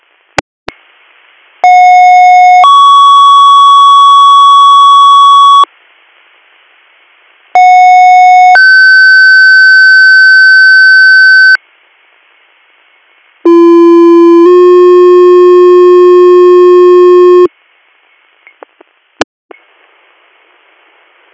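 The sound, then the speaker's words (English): Fire dispatch alert tones sound as three loud two-tone sequences. Each is a short steady tone followed by a longer tone at a different pitch, separated by pauses, and the third sequence is lower in pitch, with brief clicks at the start and end. “Do you need tones or do you have a ground station? You can drop them once.”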